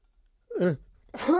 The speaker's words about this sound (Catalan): Un estornut en directe.